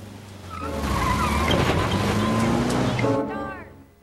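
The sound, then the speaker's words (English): A car backs up and drives off, its engine note rising over a broad hiss of tires on the road, loud through the middle before dropping away at the end. “Jonathan backs up and drives after Max.”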